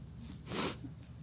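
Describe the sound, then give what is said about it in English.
A single short, sharp nasal snort from a man who is reading scripture aloud. It is a brief breathy burst with a hissing top, heard alone over a faint low hum. “Ugh, my snort.”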